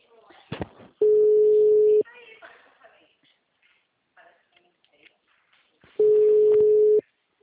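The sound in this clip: Ringback tone on a phone call: two steady, loud, mid-pitched tones of about one second each, spaced roughly five seconds apart, with people talking quietly between them.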